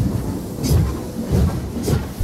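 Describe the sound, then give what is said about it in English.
A departing-train sound effect gives low, rumbling surges with bursts of hissing noise on top. A few swells rise and fall over its short length. “The train now departing from HFM is the Mole Train.”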